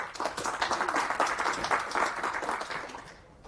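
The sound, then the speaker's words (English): Applause for a speaker at a software conference talk, brisk, steady clapping from the audience that stays full for most of the stretch and then tapers off at the end. “Put your hands together for Preeta and enjoy.”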